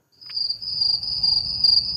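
Crickets chirping in a restored meadow on former farmland near Grüsch, a continuous high, shrill trill over soft low background noise, with no voices.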